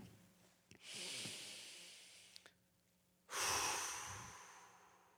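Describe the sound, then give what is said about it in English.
Deep breathing during a prayer at a church gathering: two long, soft, airy breaths separated by a quiet pause, the second louder and more hissing than the first. “If you would take a deep breath with me and we're going to pray”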